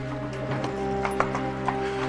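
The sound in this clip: Horse hooves clip-clopping in a loose, uneven rhythm of several fairly faint hoof strikes over a steady low hum, with no talk.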